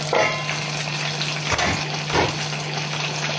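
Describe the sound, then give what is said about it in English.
Food frying in hot oil: a dense, steady sizzle and crackle with a few louder spattering swells, over a constant low hum. “If the oil is too hot and it's spraying too much, then you lower it to medium. But it's better hot, so it will be crispy.”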